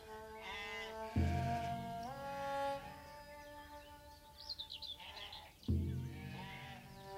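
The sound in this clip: Sheep from a shepherd's flock bleat loudly, with several wavering, harmonic-rich calls. Two strong bleats stand out, one early and one later, with no talk over them.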